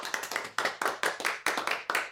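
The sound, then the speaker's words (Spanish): Audience applause at a community gathering, heard as a steady series of bright, sharp clapping bursts at a fairly even rhythm, each one quickly fading before the next. “La gente aplaude largo y agradece el trabajo del Gocode.”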